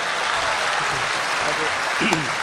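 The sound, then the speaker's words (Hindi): Audience applause fills a hall as a steady, dense wash of clapping that stays even in loudness throughout, with a brief brighter burst near the end. “आगे से पीछे तक एक बार जोरदार तालियां आपकी ओर से दिखाई देंगी”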